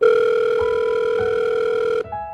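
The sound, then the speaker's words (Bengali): A telephone ring tone sounds as a call is placed: a loud, steady electronic tone holds for about two seconds, then switches abruptly to a different, quieter tone. No one speaks. “তবে তিস্তাকে বিষয়টা জানিয়ে রাখা উচিত, তাই তিনি তিস্তাকে phone করলেন।”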